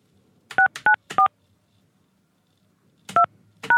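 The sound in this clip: Five telephone keypad tones enter a PIN: three quick beeps, a pause of about two seconds, then two more beeps.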